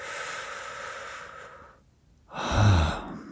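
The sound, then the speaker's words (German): Slow breathing during a mindful breathing exercise: a long, soft exhale fades into a brief silence. A louder, rushing breath follows, heard alone without talk. “Ich atme ein und aus.”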